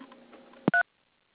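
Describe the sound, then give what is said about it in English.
A single short telephone keypad dialing tone, a clean two-note electronic beep, follows a brief sharp click, and then silence. “To reach our office administrator or accounts payable clerk, please dial 2. And to reach our controller, Aaron Green, please dial 3.”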